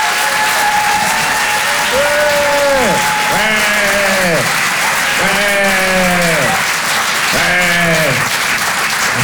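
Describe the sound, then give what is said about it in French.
A comedy club audience applauds and cheers a comedian's entrance, a loud, steady wash of clapping with a few drawn-out whooping calls that rise and fall over it. “Je vous demande de faire un maximum de bruit et de l'encourager très chaleureusement.”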